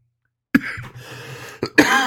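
Coughing and throat clearing from a person at a beer tasting with something caught in the throat: a sharp cough, then a rough, sustained rasp, then two more harsh bursts close together, loud and with no talk.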